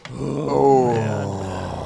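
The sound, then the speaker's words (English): A weary human groan after a long week: one drawn-out, low, voiced moan that swells, bends up briefly, then sinks and trails off. “I know that groan. You've had a long week.”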